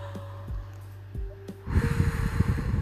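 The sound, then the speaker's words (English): A deep breath drawn in, a sustained, breathy rush of air that begins partway through and lasts to the end, after a quieter stretch of low hum. “Let's take a deep breath.”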